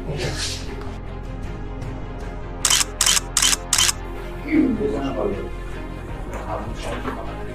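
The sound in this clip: Four quick camera shutter clicks in rapid succession, sharp and bright, set against ongoing talking.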